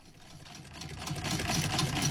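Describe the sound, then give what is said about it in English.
A very old but still working hand-cranked sewing machine runs in a rapid, steady mechanical clatter. It grows gradually louder over the short stretch and stays fairly quiet overall. “That's the sound of a very old but still very functional hand-cranked sewing machine.”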